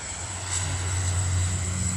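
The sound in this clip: An airplane on the runway about to take off on a flight to Malé gives a steady engine drone with a deep low hum and a thin high whine, swelling slightly and holding level throughout.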